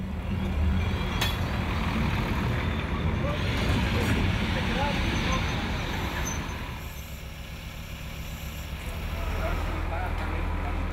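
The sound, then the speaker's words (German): A small Romanian Malaxa railcar pulls into a station from the east, from Temeswar, with a continuous low rumble and mechanical clatter that stays fairly steady, dips briefly and then swells again. “Aus östlicher Richtung, aus Temeswar, fährt der kleine rumänische Malaxa ein.”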